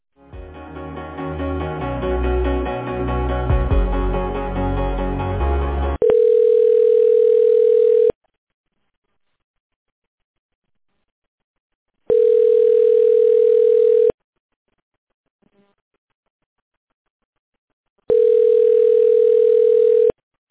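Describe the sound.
A telephone line tone sounds during a call transfer, following a stretch of music. Three long, steady, loud beeps of about two seconds each are separated by silent gaps.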